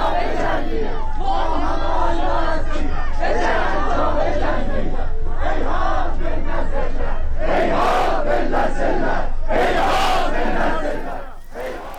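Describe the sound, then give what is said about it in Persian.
A large crowd chants protest slogans in Turkish in Tabriz while security forces on motorbikes attack with batons. Loud, continuous massed voices shout in unison, with rising bursts of yelling throughout. “مردم به ترکی شعار میدن که آذربایجان چنین ذلتی رو تحمل نمیکنه و صدای اونجا رو میشنویم.”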